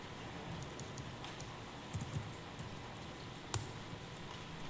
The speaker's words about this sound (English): I'm going to type out.